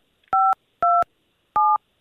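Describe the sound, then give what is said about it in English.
Telephone keypad dialing: three clear two-tone beeps, each steady in pitch and about a quarter second long, with short silent gaps between them. “you want to dial that number I gave you?”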